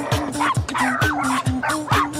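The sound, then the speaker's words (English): Several dogs bark and yip together, a pack of at least ten tangled in their leashes with a dog walker. Loud, overlapping barks land about every half second, with higher yelps mixed between them. “where he gets blocked by a dog walker, getting tangled in the twisted leashes of at least 10 dogs.”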